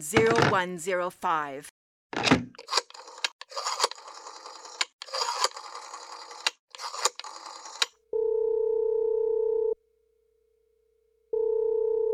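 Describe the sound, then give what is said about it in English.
A telephone number being dialed: a long run of sharp clicks and short whirring bursts, then a steady tone that sounds, breaks off, and resumes. “Oh, for heaven's sakes. I've no time to be dialing.”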